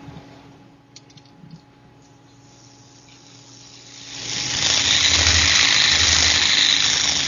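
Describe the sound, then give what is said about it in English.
A thrown yo-yo spins with a high, whirring squeal. The sound starts faint, then swells in midway and keeps going loud and steady to the end. “It was making an ungodly noise. Here, I'll throw it again.”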